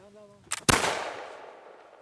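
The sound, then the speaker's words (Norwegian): A musket fires at a shooting range during a precision test. A short sharp crack is followed a moment later by a louder blast whose long, hissing tail slowly fades. A voice is faintly heard just before. “nå skal han ta oss med på skytebanen for å teste muskettenes presisjonsnivå”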